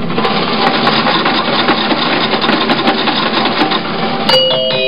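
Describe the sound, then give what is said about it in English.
Fortune card machine being operated: a continuous loud mechanical rattle and whir with clicking, ending in a brief ringing tone. “It's the first time I ever used the machine. Let me try it again.”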